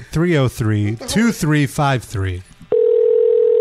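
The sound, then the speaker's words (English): A telephone tone sounds while a call to a radio guest is placed: a steady, mid-pitched electronic hum that starts abruptly after a voice and holds unbroken to the end. “Let's see if he picks up the phone.”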